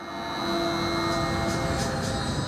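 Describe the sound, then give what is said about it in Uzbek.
A freight train from China pulls into a port with a steady, heavy rumble and a sustained tonal hum that swells over the first half second, then holds level, with a few faint hissing bursts above. “Portda navbatdagi poyezd Xitoydan yetib keldi.”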